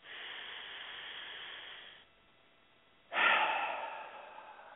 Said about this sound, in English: And take a big breath in.